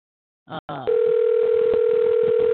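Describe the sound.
A telephone dial tone sounds during a redial after a hang-up, starting with two brief clicks and then settling into a steady, unbroken hum that continues to the end.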